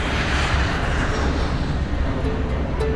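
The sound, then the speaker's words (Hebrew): An airplane on the runway gives a steady, loud roar as it takes off, a dense, unbroken rumble. “המטוס רועם לאורך המסלול, מתרומם וממריא אל השמיים.”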